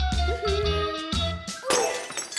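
Porcelain dishes breaking while a table is being set: a quick series of clattering crashes and ringing shatters, ending in a louder, brighter burst of splintering porcelain.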